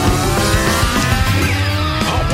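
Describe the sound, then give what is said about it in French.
Continuous motorcycle engine whine from an old motocross video game, a loud buzzing with layered harmonic tones that shift throughout and climb sharply in pitch at the very end. “Wow, un thème en plus! Oui, avec cette bike, pour ceux qui reconnaissent le bon vieux jeu de motocross.”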